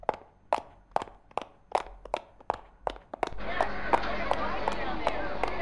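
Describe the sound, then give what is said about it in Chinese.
Hurried footsteps of people walking quickly: many sharp, evenly spaced steps in a brisk rhythm, then a broad, steady rush of noise rises and continues under the last few steps. “啊，那走快点吧。”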